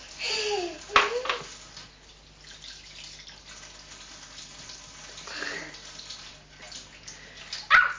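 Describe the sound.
Water running from a tap and splashing as someone plays with it, a faint, continuous trickle, with a voice speaking briefly near the start and again at the end.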